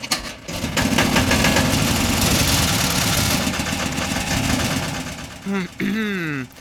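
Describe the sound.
A motor engine starts and runs with a loud, steady roar that holds for several seconds, dips briefly, then picks up again before the end.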